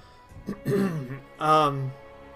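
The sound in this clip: A voice performs a throat clearing for a character during a tabletop role-playing game, two voiced, gravelly 'ahem' bursts, the second longer and louder.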